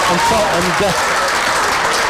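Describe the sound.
Spectators applaud at a rugby league match after a try and conversion put Dewsbury ahead. The clapping is broad and steady, with a commentator's voice running over it.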